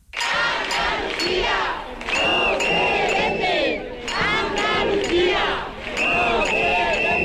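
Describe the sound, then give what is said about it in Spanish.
A protest march of about a thousand people for housing rights in Jerez, the crowd chanting loudly in repeated rhythmic bursts with brief pauses between, plus occasional shouts and clinks. “Estos son algunos de los sonidos que ha dejado la manifestación convocada por el colectivo Jerez por la Vivienda”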